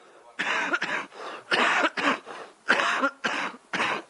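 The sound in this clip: A coughing fit from a speaker during a lecture session: many loud, harsh bursts, often in close pairs, with short gaps between them and nothing else underneath.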